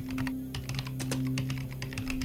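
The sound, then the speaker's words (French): Rapid typing on the keyboard of a positronic computer in a science-fiction setting: many quick, irregular key clicks over a faint, steady low hum. “Sandorf pianota sur le clavier de la positronique”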